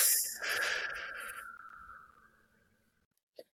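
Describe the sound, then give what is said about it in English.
One deep, breathy exhale during a guided calming exercise for anxiety, starting strong and fading steadily to silence over a couple of seconds, unaccompanied by speech. “Deep breath in. Let it all go.”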